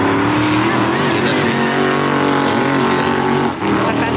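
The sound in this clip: Race cars at the Bathurst motor race roar loudly and continuously, with a steady layered engine drone that dips briefly near the end.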